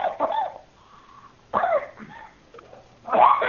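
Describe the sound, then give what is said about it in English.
A person coughing: three harsh, rough bursts separated by short quiet gaps. Each burst is loud and no speech is heard. “You got a terrible cough. You got a tobacco cough?”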